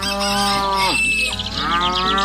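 A dairy cow gives a loud, drawn-out moo that lasts about two seconds. Its low pitch dips in the middle and climbs again.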